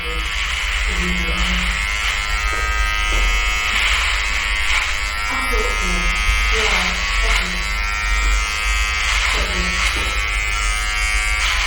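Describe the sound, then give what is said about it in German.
An electric clipper trims thick beard hair with a loud, steady buzz that runs without a break from start to end. People talk over it throughout. “Da muss ich an die Maschine. Meine Barthaare sind zu dick.”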